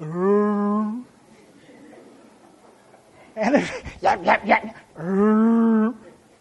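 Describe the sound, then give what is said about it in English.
A human voice imitates a basset hound barking: two long, low, drawn-out woofs with a short burst of rougher vocal sound between them. “And the basset would just lay there, except every now and then he'd go,”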